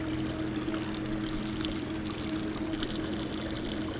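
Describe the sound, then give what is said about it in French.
Water flows over a peat bog in a steady, unbroken wash of trickling and pouring, with a low even hum beneath it and no pauses. “l'eau glisse sur une tourbière”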